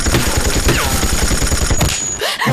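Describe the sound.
Machine-gun fire in a battle, a dense run of rapid, loud bursts that rattle on almost without pause and thin out briefly near the end.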